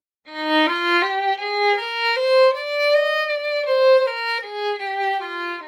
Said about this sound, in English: Let's try slurs of three. That's going to sound something like this.